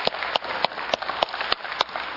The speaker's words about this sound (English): That's worth a clap.